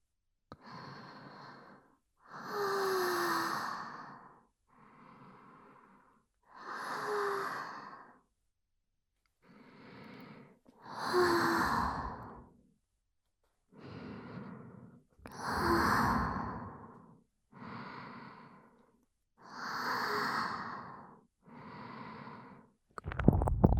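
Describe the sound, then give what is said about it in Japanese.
Slow, deep breathing, with many long airy inhales and sighing exhales following one another in an even, unhurried rhythm. The breaths are soft and close, with no talk. “深呼吸、私の呼吸に合わせてゆっくり深呼吸して、”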